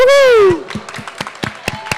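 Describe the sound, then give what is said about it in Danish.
Brief applause for a prize winner at a student event: a drawn-out vocal note opens, then a few scattered, uneven claps follow at a quieter level. “Liten applaus for deg.”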